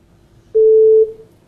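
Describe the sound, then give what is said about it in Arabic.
A telephone line gives a single steady mid-pitched tone after a caller's connection dropped. The tone lasts about half a second against a faint background, then tapers off. “فقدنا اتصال أبو أحمد، نرجو منه معاودة اتصال”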